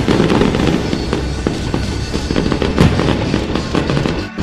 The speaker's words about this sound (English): A lot of big exploding balls in the sky. Multicolored. These are my favorite type.